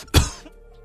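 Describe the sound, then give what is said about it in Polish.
A single short, sharp cough on its own, with a hard onset and a quick fade into near silence. “Sorry, bo się skaszlałem.”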